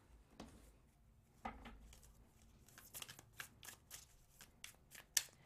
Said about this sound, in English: Let's dig into the tarot to see what this is all about. If I can put these cards down.